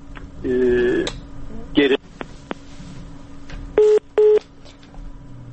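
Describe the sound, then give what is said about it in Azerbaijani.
Electronic telephone line tones after a phone line failure: a longer steady tone burst, a brief one, then two short, evenly spaced beeps, all over a low background hiss with no talking. “telefon hattında problem yarandı. Çox təəssüf edirəm.”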